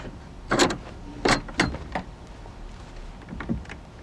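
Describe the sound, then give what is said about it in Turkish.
A door bolt is slid open in a few short bursts of scraping, metallic clunks and rattles, fairly loud, with quiet gaps between them and no talking. “kapının sürgüsünü açtı”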